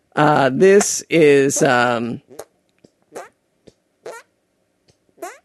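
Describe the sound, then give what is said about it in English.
Hand farts: a few short, squelchy, wet-sounding bursts spaced apart, following a stretch of talk at the start. “this is not me farting. Oh, how great would that be? How great would it be if I could just convince everybody that I was always making hand farts?”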